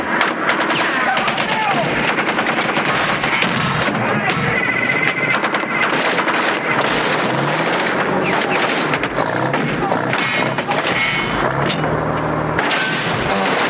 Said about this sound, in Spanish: Sueco, ve allí con la M60. Sueco se adelanta y comienza a disparar.